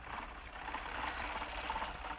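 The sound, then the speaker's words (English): Continuous rattling clatter of a horse-drawn mowing machine cutting hay in a field, fairly faint and even throughout with no voices. “there's old Lucien Bédard on his mowing machine. It looks like a big old lawnmower pulled by a team of horses.”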